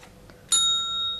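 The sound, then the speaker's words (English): A single bright bell ding, used as the cue to turn the page, strikes once and leaves a clear ringing tone that fades slowly over a quiet background. “When you hear the bell, turn the page.”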